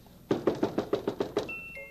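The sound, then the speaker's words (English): Someone knocks at a front door with a quick, even run of many sharp raps, followed by a thin, steady tone. “It's a good feeling to know that somebody's at the door, too. Will you look to see who it is out there?”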